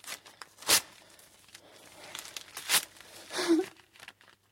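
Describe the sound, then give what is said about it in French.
A paper notebook is torn up in a few sharp rips and crinkles, with quiet rustling between the louder tears. “Déchire ce cahier immédiatement.”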